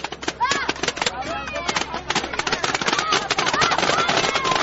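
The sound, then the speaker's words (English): Rapid paintball gunfire from visitors shooting at a zombie in a lighted cornfield during a nighttime zombie hunt on a tractor-pulled wagon, many sharp pops in quick bursts layered with voices. “The visitors fire their paintball guns and cover the zombie with orange paint.”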